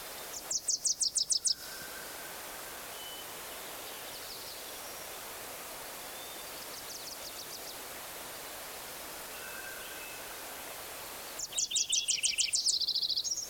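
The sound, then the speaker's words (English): Wilson's warbler song: two bursts of rapid, high chattering notes, one at the start and a louder one near the end, with a few fainter, softer high notes in between, all over a constant steady hiss. “Eleven, Wilson's warbler again.”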